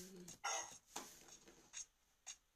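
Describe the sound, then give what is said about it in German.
A dog barks faintly, a few short, sharp barks spaced irregularly with quiet gaps between them. “Ich höre es schon wieder. Mein Hund bellt doch schon wieder.”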